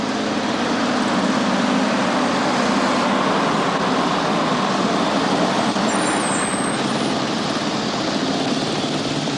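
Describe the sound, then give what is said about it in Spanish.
A bus escorted by two motorbikes runs beside the railway tracks of a train station as it comes to a stop, producing a dense, steady engine roar and road noise at an even level from start to end. “Un autobús escoltado por dos motos se detiene junto a las vías de una estación de tren.”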